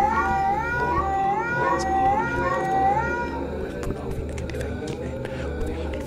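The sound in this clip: Cats yowling in a horror setting: several drawn-out, wavering meows rise and fall over a low rumbling background, then fade into dark, noisy ambience with faint clicks.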